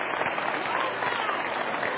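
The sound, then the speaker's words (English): A church audience claps in a dense, continuous patter, with voices mixed in over the clapping. “Y'all let y'all scared to clap on that. Ain't nobody gonna get mad.”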